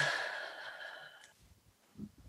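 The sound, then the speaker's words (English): A deep breath drawn in and released during a guided relaxation exercise: a faint, airy breath that tapers away, followed by a few soft, low sounds near the end. “Listeners, take a deep breath, close your eyes, and release.”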